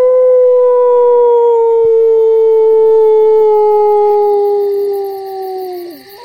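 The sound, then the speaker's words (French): A man's voice imitates a wolf howl in one long, loud, sustained tonal cry lasting about six seconds. The pitch sinks slowly throughout, then drops and breaks off sharply at the end. “Ça ressemble à quoi, un loup qui hurle? Eh bien, ça ressemble à ça, là.”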